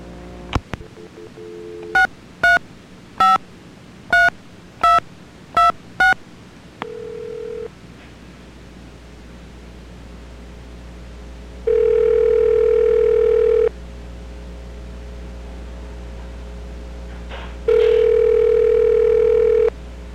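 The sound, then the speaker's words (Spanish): Telephone dialing as a call is put through: a rapid series of short keypad tones, a brief steady tone, then two long, loud ringback tones with a gap between them, and the call goes unanswered. “Bueno, ahora te voy a poner con Albertico.”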